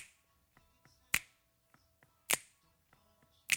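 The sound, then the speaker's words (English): Three crisp, loud finger snaps land at an even pace about a second apart in a Motown song, with faint backing notes and softer ticks between them. “Now we're heading towards the chorus, and there's a couple of new elements added here. There are some finger snaps”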